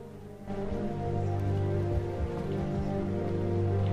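Steady rain falls outdoors, a continuous dense hiss that is a little quieter for the first half second, then swells and holds even, with no voices.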